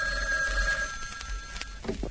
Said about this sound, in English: Oh, do you hear that? That was the bells of Capistrano, I think. No, that's the phone.